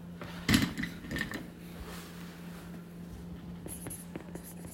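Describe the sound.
Someone writing by hand makes soft pen-on-paper scratching, with a few brief scratchy strokes early on and then faint, intermittent ticks over a steady low hum.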